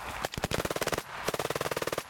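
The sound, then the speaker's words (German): Soldiers on a military shooting range in Norway fire German and Dutch small arms, heard as two rapid, evenly spaced bursts of many sharp shots separated by a short pause, fairly faint overall. “Ja, also heute auf der Schießbahn hier in Norwegen schießen die Soldaten mit ihren Handwaffen”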